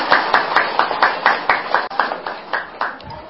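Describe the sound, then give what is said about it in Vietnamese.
An audience at a Buddhist dharma talk claps in unison, a steady, even beat of sharp hand claps about four per second, moderately loud and with no talk over it. “Cho chào pháo tay nữa.”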